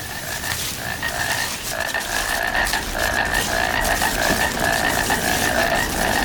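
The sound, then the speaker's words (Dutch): Painted frogs croaking in a dense, continuous chorus, with many rapid, overlapping pulses holding a steady, fairly high-pitched buzz throughout, with no voices. “Even luisteren nog naar die schijftongkikker.”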